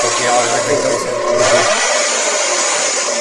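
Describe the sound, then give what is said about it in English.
A racing car engine revs during a race weekend, a loud, dense and steady roar that holds throughout. People talk over it. “don't rev it, mate.”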